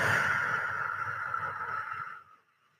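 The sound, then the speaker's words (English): A slow, deep breath released through the mouth during a guided breathing exercise, a soft airy rush that steadily fades over about two seconds into silence. “So we'll take a breath in through your nose. Let's breathe it out through our mouths.”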